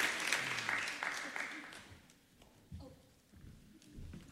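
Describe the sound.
Applause from an audience at an awards occasion, clapping for a group of girls. It is full and busy at first, then thins and fades to scattered, quieter sounds partway through.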